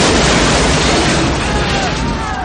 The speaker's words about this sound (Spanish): Cierran la puerta de la furgoneta ante la sonrisa de Belén, que se vuelve justo cuando la furgoneta explota en una gran bola de fuego.